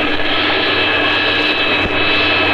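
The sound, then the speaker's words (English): An aircraft engine runs at stable RPM after start-up, giving a loud, steady roar with a constant high whine throughout and no talk. “Now we check for oil pressure. We check RPM coming up. Let the RPM stabilize.”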